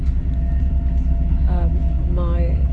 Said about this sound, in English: So I'm now in a train to Geneva. It's evening.